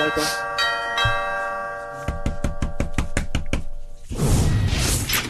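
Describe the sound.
A doorbell rings at a front door: first a sustained bell-like tone, then a rapid run of many sharp, evenly spaced pulses, followed by a burst of louder rustling noise.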